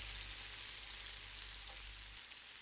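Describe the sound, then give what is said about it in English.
Meat fries in a pan with a faint, steady sizzling hiss and no distinct pops, over a low hum that cuts out shortly before the end. “Chop onion. Smells good. From garden this morning. Fried meat.”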